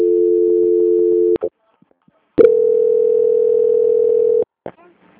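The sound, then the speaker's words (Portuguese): Telephone transfer tone on a call to a bank's quality-control line: a steady, low, pure electronic tone sounds for over a second, a click and short pause follow, then a second steady tone lasts about two seconds before cutting off with faint clicks. “Só um minuto, seu Silas. Tá bom? Transferência.”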